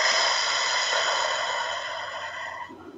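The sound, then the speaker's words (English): One long, even breath is drawn in through the nose and let out through the mouth during a guided relaxation exercise. It sounds airy and steady and fades at the end. “Breathe in deeply through the nose, see how big you can make your belly, and out through the mouth”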